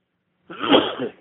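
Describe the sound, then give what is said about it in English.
A single sneeze into a phone, one sharp breathy burst lasting under a second, with no talk around it. “excuse me, that sneeze has been coming”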